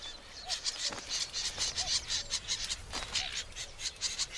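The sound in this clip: Reed warblers calling near their nest: short, sharp chirps and ticking notes repeat at irregular intervals, fairly faint against a soft background.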